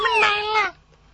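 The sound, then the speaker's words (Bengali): A cat meows once, a single clear, tonal meow lasting under a second that dips slightly in pitch at the end before silence. “এটা কি বিড়াল বলতেছে”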